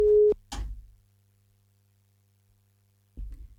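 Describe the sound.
A call tone on a phone-in line: one short, steady, mid-pitched beep, then a click-like noisy burst and a faint, constant low hum. Another short noisy burst comes at the end.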